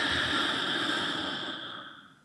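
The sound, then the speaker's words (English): A deep breath let out slowly in one long, soft exhale whose breathy hiss gradually fades away. “take a deep breath in and hold it for a moment and let it out.”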